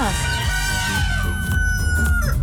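A rooster crows in one long, drawn-out call that fills the whole stretch over a steady, low, busy background.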